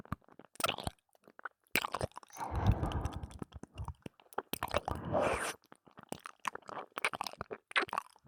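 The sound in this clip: Greedy chewing and munching: wet, crunchy bites and smacking mouth sounds come in irregular bursts throughout, with a longer squelchy stretch in the middle.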